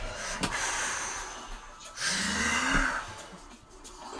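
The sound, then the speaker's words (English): Continuous breathing with no pause between inhaling and exhaling, done as a breath-holding exercise: airy, rushing breaths run on without a break and grow louder partway through, alone with no talk. “No pause between inhalation and exhalation.”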